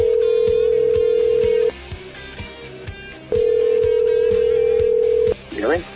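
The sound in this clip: Ringback tone of an outgoing phone call ringing on the line: two long, steady, mid-pitched buzzes with a pause between them, over a rhythmic music bed, with a voice briefly at the end.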